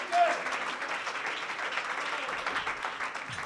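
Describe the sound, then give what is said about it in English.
A church audience clapping their hands during a worship service, a steady, busy patter of applause at moderate volume that fills the whole clip, with voices mixed in beneath the clapping. “Clap your hands unto the Lord.”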